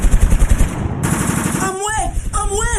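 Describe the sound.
Rapid bursts of automatic gunfire rattle loudly in a dramatized scene about attacks on health workers, followed by urgent, shouting voices.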